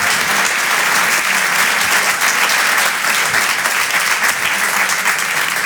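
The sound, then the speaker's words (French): Audience applause for stand-up comedian Alexis Tramoni, a dense, steady wash of many hands clapping, loud and even throughout with no voices standing out. “Faites du bruit, s'il vous plaît, pour Alexis Tramoni.”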